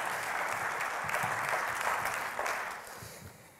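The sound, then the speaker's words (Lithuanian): Audience applause welcoming a writer and journalist as a guest on a show: dense, steady clapping that fades away over the final second. “Pasitikime plojimais.”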